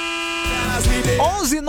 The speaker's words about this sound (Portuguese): A buzinada aqui, todo mundo, olha, tomou conta do Brasil, buzinado.